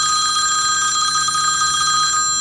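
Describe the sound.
A telephone bell rings steadily and loudly for the whole stretch, with a bright, sustained metallic tone and no voices.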